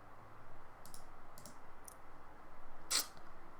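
Computer mouse clicks while opening a Windows services panel on a PC: three faint, evenly spaced clicks followed by a single louder, sharper click.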